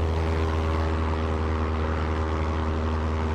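A low-flying propeller aircraft searching in fog gives off a steady, loud engine drone. The low rumble is constant throughout, with no other sounds.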